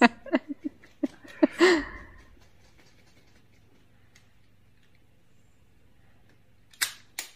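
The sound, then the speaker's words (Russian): Metallic clicks of an automatic rifle being assembled: a quick run of sharp, bright snaps over the first two seconds, then quiet, then a couple of brief clattering bursts near the end. “Это как в армии, да? Да-да, автомат собирает.”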